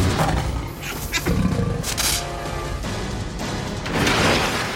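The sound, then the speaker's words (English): Deep, rough roars of a lion on the savannah rumble out loud and unbroken, with several heavy surges of growling power and no voices. “The lion, a mighty predator that stalks the savannah.”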